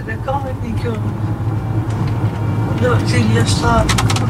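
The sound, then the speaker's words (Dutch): Steady low engine and road rumble inside a moving car carrying three people, continuous throughout, with voices talking over the hum. “We zitten met z'n drieën in de auto.”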